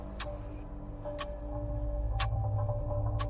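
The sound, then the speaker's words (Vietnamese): A clock ticks four times, sharp, faint and evenly spaced about a second apart, over a low steady hum. “Kim đồng hồ vẫn chạy được.”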